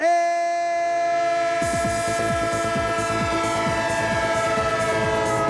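Train horn holding a steady, multi-toned chord, joined after about a second and a half by a loud, rhythmic clatter of wheels on rails that continues to the end with no voices.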